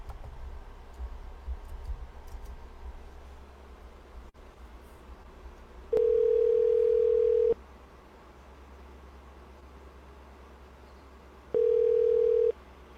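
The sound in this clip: Ringback tone of an outgoing telephone call: two steady, low-pitched tone bursts, the first about one and a half seconds and the second slightly shorter, separated by a long gap over faint background hiss.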